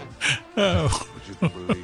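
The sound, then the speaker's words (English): Sheep bleating in a few wavering, harmonic-rich calls. A louder, longer bleat comes early, followed by shorter, sharper cries toward the end, with quieter gaps between. “It's the sheep keeps hollering.”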